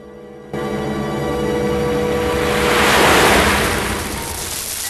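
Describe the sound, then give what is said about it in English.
Rushing water pours over a stream weir into swirling water below, a dense, steady roar that starts abruptly, swells to a louder peak midway, then eases slightly while staying continuous. “Orson Welles lies on the surface of the stream, then gets washed over the weir into the swirling waters”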